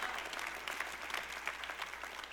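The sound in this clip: A church audience claps in a dense, even patter of many hands that holds steady for a couple of seconds at a fairly soft level.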